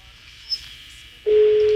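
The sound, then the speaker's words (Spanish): A telephone ringing tone sounds on an outgoing call. After faint line hiss and a brief blip, a steady, low, even tone starts abruptly and holds to the end. “Está sonando el teléfono.”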